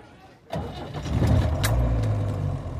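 A car engine cranks and catches, jumping from quiet into a steady, rumbling idle that holds to the end.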